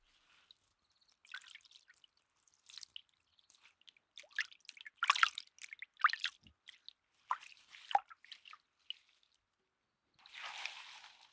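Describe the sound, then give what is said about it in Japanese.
Warm rinse water splashing and dripping in many short, irregular bursts, ending in a brief steady spray. “最後は温かいお湯で洗い流していきますね。”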